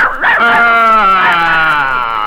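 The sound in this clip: A little dog lets out one long, loud whining yelp that wavers in pitch and lasts about two seconds, heard alone.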